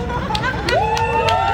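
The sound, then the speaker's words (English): A crowd at a rainbow flag raising for Pride Month at Richmond City Hall, heard as a brief, busy murmur of overlapping voices. “That's the sound of Richmond Mayor Danny Avula and city council members raising the rainbow flag in honor of Pride Month.”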